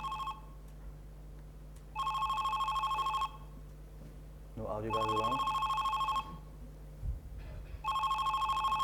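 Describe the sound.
A telephone rings in repeated electronic bursts on a call to the Zurich opera phone line, about four rings separated by short pauses, with a voice speaking briefly over one ring.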